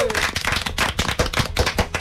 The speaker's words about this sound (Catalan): Aplaudiments, home! Aplaudiments.